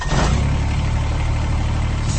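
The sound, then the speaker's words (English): A Kubota BX Series subcompact tractor engine runs with a loud, steady rumble and a low droning hum. It holds an even level throughout without pauses. “That's the sound of a Kubota BX Series, America's top-selling subcompact tractor for over 11 years running.”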